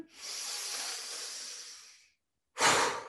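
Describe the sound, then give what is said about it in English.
A slow, deep breath in during a guided meditation exercise: a soft, airy inhale lasting about two seconds, a short silence, then a louder, breathier second intake of air beginning. “Ready, deep breath in. One more time, deep breath in.”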